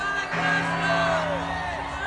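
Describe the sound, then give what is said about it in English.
A crowd cheers and whoops in a film scene celebrating a victory, with one voice shouting above the steady roar of the throng. “there's a shot of Coruscant and people celebrating the defeat of the Empire. You could definitely hear someone screaming something”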